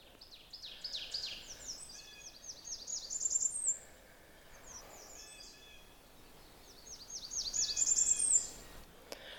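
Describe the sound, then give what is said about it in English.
A Blackburnian warbler sings its very high, thin song in two faint bouts. Each bout is a rapid series of rising notes that climbs to a piercing, wiry finish, with quieter bird calls between them. “I'm trying to record something that's actually hard to hear, even though I'm standing here. It's one of the very high warbler songs. It's the Blackburnian warbler.”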